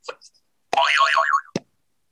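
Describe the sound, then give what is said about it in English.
A cartoonish boing sound effect with a springy, wobbling pitch that slowly settles, framed by a few short soft knocks before and after. “I wish there was a more gentle version of the boing sound.”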